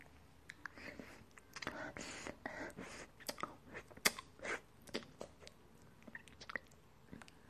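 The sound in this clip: Wet licking and slurping mouth sounds, many soft irregular smacks and clicks in an uneven rhythm, quiet throughout with no clear speech.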